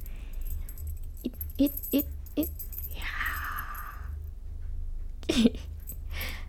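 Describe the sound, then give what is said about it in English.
Keys jangle as they are played with: a few faint, brief metallic clinks and rattles over a low steady hum, with a softer rustle in the middle and another small jangle near the end. “he's playing with my keys.”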